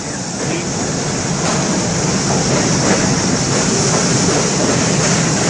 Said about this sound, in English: that's another one of them highfalutin, newfangled subway trains.